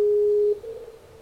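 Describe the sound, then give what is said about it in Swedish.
A Skype call tone sounds: a single steady mid-pitched beep holds for about half a second, then cuts off and fades to quiet. “Så nu ska vi ringa han via Skype här, eh, likt det dataproffs vi är. Får vi se ifall han svarar.”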